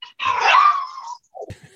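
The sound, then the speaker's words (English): A dog gives a drawn-out, whining howl for about a second, then a couple of short, faint huffs. “Who is that? That's a dog. He seems to find this especially painful, this part of it. She's a very wise dog.”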